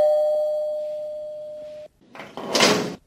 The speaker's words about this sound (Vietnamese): tiếng chuông cửa làm bà giật mình